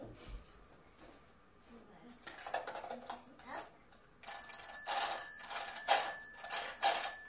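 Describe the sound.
A telephone rings faintly in repeated bright, buzzing bursts that grow more prominent toward the end, over a low background hiss.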